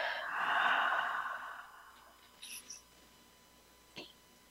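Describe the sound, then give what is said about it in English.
A deep breath drawn in and released during a guided relaxation exercise: one long, soft, breathy swell that fades out, followed by a few faint clicks in near silence. “Another deep breath in and release.”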